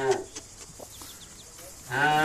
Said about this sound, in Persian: گاوه.